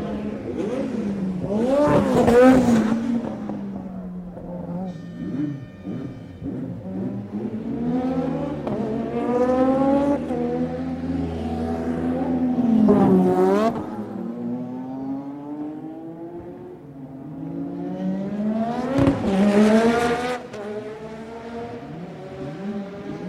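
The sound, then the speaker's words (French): Formula 1 race cars howl past the pits at speed, their high-revving engines sweeping sharply up and down in pitch with each loud pass, a few passes standing out over a continuous droning engine wail. “Arrêt au stand, plus passage rapide devant les stands.”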